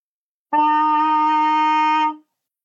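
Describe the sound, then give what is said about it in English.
A brass instrument's tuning slide, pulled off and blown as a pipe, sounds one steady concert E flat. The single sustained, buzzy tone holds for nearly two seconds, loud and alone, then cuts off cleanly. “So playing the pipe, you'll take your tuning slide off. When you play this, it plays a concert E flat. So it sounds like this.”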